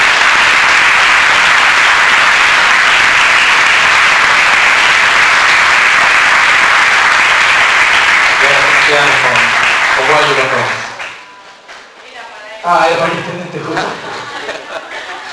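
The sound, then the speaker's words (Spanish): Loud, sustained audience applause at a debate conference holds steady for about ten seconds before dying away, followed by scattered chuckles and murmured chatter. “le agradecemos por un aplauso a Miguel”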